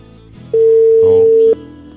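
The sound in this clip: Telephone tone while a call is being dialed: one steady, mid-pitched beep lasting about a second, loud over a low background murmur.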